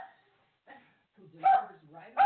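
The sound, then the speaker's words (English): A small dog barks at a delivery person, giving a few short, high-pitched yipping barks separated by brief pauses, with the last ones loudest. “That is my little dog in the background barking at an Amazon delivery person.”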